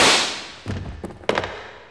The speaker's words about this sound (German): Sie haben gleich beim ersten Schuss ins Schwarze getroffen.